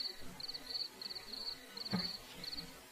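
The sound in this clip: Crickets chirp outdoors in a series of short, high-pitched pulsed trills that repeat in a steady rhythm, faint against a quiet background hiss.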